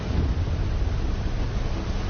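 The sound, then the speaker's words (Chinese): Storm wind and heavy waves batter an offshore platform at sea during a force-12 storm, a loud, continuous, dense roar with no distinct breaks or separate events. “12级风暴已经足够掀起滔天巨浪，平台在风浪中上下起伏”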